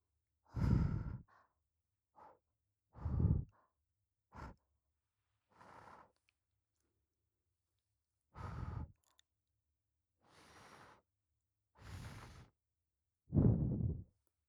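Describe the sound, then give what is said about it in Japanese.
Gentle ASMR-style blowing into the ear: a series of soft, breathy puffs of air, each short and airy, separated by quiet pauses, some stronger than others. “長めにお姉ちゃんがふうふうしてあげちゃいます。最初は軽めに、”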